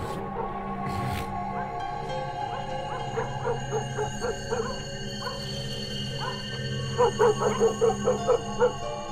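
Dogs barking at night at the head of a street, sounding faint and far off: a loose string of short yips and barks that grows into a tighter, louder burst of barking near the end, over a steady low background hum.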